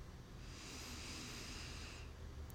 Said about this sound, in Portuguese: E agora vamos fazer três respirações profundas. Puxa o ar.